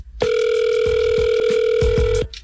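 A telephone ringback tone sounds as a radio show calls a contest winner: one steady, unbroken electronic tone held for about two seconds, fairly loud, with a few soft low thumps beneath it.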